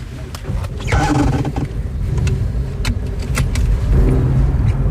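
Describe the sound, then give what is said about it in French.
A car drives along a riverbank road in Paris with a steady low engine and road rumble throughout. Occasional light rattles and clicks sound over the continuous noise. “Donc là, on roule sur les berges côté Veolia. Voilà. Et on va prendre le pont pour rejoindre Eau de Paris.”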